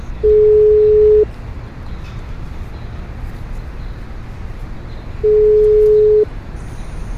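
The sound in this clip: Ringback tone of an outgoing phone call, placed while standing near a road bend: two long, steady, mid-pitched tones about four seconds apart over a constant hiss of background noise.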